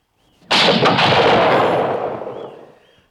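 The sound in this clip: A single loud pistol shot in a duel cracks out with a sharp onset, then a broad rumbling tail fades over about two seconds, with no voices.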